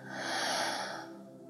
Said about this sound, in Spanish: Una vez más, inhala profundo por nariz. Y exhala por tu boca.